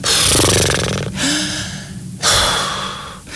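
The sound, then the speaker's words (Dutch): Deep exhaling breaths taken slowly while waiting at a traffic light: a few long, loud, breathy rushes of air following one another, close and alone without any talk. “ga maar eens lekker drie keer, als je bij het stoplicht staat, drie keer even heel diep uitademen.”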